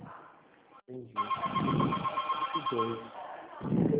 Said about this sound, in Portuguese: Tá entrando tanta ligação aqui que eu não tô conseguindo.